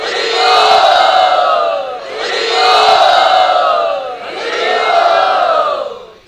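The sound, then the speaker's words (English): About 400 Gaudiya Math devotees on yatra arrive at a door, their massed voices loud and sustained. The sound swells and eases in three long waves of shouting. “At this time, there are about 400 devotees of Gaudiya Math who are on yatra, who are just approaching the door.”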